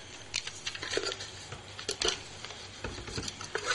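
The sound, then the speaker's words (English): Draw entries being stirred in a box make a faint papery rustle with light, irregular patters and clicks, and no voices. “So I'll get the box and give it a stir.”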